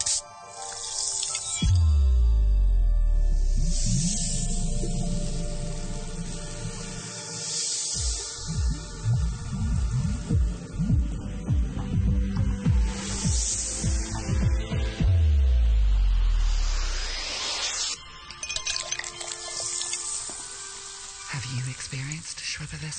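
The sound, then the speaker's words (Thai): Fizzing of Schweppes soda in a 3D audio advert: bursts of hissing, spraying carbonation and sizzling come and go throughout, laid over low droning, tonal sounds that rise and fall. “อันนี้ค่ะเราจะได้ยินเสียงเหมือนความซ่าของโซดาตลอดคลิปเลยโดยที่แบบเราไม่ต้องพูดว่ามันซ่ามากแค่ไหนน”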